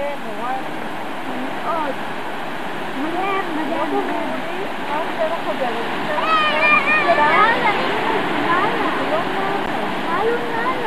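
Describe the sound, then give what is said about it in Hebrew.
A waterfall at Pfeiffer Big Sur State Park pours onto sand in a constant rushing roar, and people talk over the water throughout. “תראי איזה יופי, המפל נשפך לתוך החול, ממש כמעט לתוך המים.”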